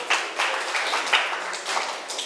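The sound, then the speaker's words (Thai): Students clapping for a classmate in a classroom, a short burst of scattered, uneven claps from a small group, moderately loud and a little ragged in rhythm. “นักเรียนปรบมือให้เพื่อนหน่อยค่ะ”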